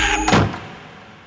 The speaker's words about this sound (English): I slam the door